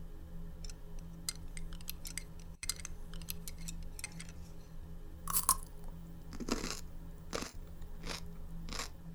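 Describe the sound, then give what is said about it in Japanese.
Crunchy pickled cucumber chewed with rice: a few louder, crisp crunching bites stand out among many small crackling clicks of chewing, over a faint steady hum, with no talk. “このキュウリの漬物、すっごく美味しいじゃんよ。ご飯進む。”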